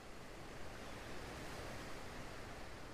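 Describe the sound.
Ocean waves at the sea make a steady, continuous rushing wash of surf with no distinct breaking crests. The level stays even throughout, and no voices are present.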